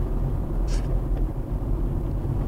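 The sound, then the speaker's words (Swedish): A car drives along a country road past rapeseed fields into a village. A steady low rumble of the engine and tyres carries throughout, with a constant wash of wind noise on top. “Så nu kör vi in i Vollsjö.”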